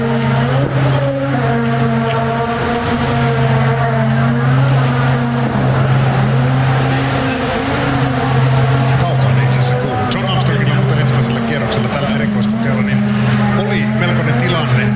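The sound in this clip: Rally car engine holding a loud, continuous roar for the whole stretch, its steady low hum layered with a rich stack of humming overtones that waver slightly as the revs shift.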